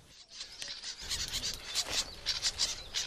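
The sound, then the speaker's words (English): A bird of prey calling in flight, a rapid series of thin, high chirping calls that begins after a second of quiet and repeats at a quick, uneven pace, faint overall. “A bird of prey in flight.”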